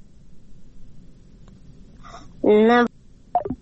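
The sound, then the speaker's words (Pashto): Telephone line tone after a caller's connection drops on a call-in line: a short, buzzy electronic tone rich in harmonics, with a brief blip after it and faint hiss around. “ښه ده ټلیفون دې بند شو”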